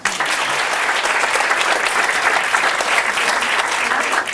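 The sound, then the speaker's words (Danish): Audience applause for Danish politician Pia Kærsgaard at a stand-up comedy show, a loud, dense and steady roar of many clapping hands held evenly throughout. “Øh, giv en stor hånd til Pia Kærsgaard.”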